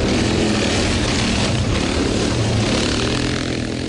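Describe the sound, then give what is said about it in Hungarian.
Steady droning engine of a police quad, a four-wheeled off-road vehicle patrolling the forests around Veresegyház and Domonyvölgy, running continuously and fairly loud with no pauses. “A furcsa négykerekű jármű, amelyen a rendőr ül, a quad. Nehezen járható területekre is könnyen el lehet jutni”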